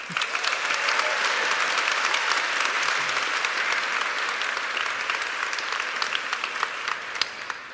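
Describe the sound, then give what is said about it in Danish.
Audience applause for two guests at a Danish stage event, a dense, sustained ovation that eases slightly toward the end, with a few sharper individual claps near the close. “Kan I ikke få en hånd mere for dem?”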